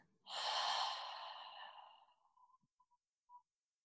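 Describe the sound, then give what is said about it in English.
A single long, deep breath during a guided meditation starts abruptly, rushes softly and airily, then fades slowly, followed by a few faint small clicks. “we're going to take a few deep breaths in, in through our nose, hold at the top, exhale through your mouth.”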